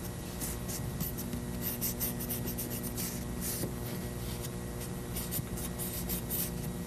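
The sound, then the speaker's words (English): Scratchy drawing strokes as initials are made on the side of a toolbox, a steady run of rubbing, scraping marks that continues without pause and without voices. “See, if I put it like that, and I can make some neat initials right on the side of the toolbox.”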